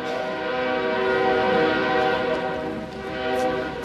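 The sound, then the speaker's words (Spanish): A passing train sounds a long, steady horn with rich layered tones over a low rumble, swelling and easing in loudness, and no one speaks. “el tren Esperamos a que pase tantito.”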